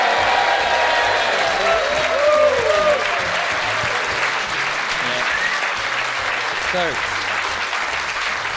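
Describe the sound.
Audience applause welcoming a comedian onto the stage at the Edinburgh Fringe: dense, steady clapping fills the whole stretch, with a few cheers rising above it.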